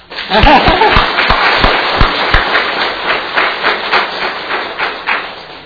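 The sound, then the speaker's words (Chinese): Applause from a church audience welcoming a newly hired full-time pastor, opening with a few sharp separate claps that quickly build into dense, steady clapping. “要不要鼓鼓掌”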